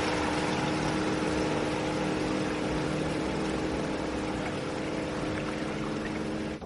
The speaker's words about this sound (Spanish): Al día siguiente navega por el río en su bote en dirección al almacén.